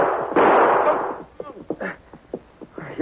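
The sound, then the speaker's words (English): A gunshot that knocks a pistol out of a man's hand: one loud burst with a roaring tail, followed by short, fainter, irregular sounds. “You shot the guns right out of my hand.”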